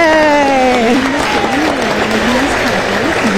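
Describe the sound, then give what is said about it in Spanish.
Audience applause welcoming a guest, loud, steady clapping with a voice calling out over it at the start. “Así que recibimos a Ana María Telles con un fuerte aplauso.”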